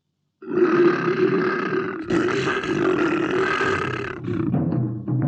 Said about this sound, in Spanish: Este es un león. Escuchadlo rugir.